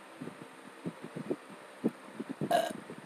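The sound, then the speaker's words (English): One short, throaty burp comes after a series of soft, low, rhythmic thumps and stands out clearly but not loudly. “I'm sorry about that. That was a burp. That was not supposed to happen.”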